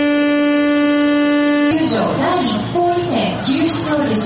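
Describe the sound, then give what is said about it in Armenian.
An air raid siren sounding in a civil defence drill in Japan: a loud, steady low tone held for under two seconds, then cut off as a voice begins speaking. “Տագնապի ազդանշանը հնչել է տասնյակ քաղաքներում։”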